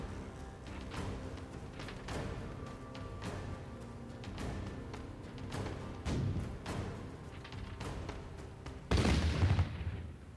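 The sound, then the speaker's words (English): Cannon fire from a warship in a video game, heard as a run of sharp booming shots over a constant rumbling din, fairly quiet overall, with the heaviest, loudest blast near the end. “The Man of War is now going to fire. It has two shots available from here.”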